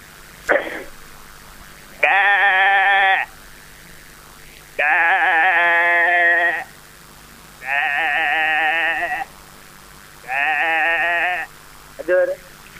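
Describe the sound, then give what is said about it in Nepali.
A person imitates a sheep bleating, giving four long, wavering, nasal bleats separated by pauses, with a short bleat-like burst at the start and another at the end. “भेडा नकल गर्छु है दादा।”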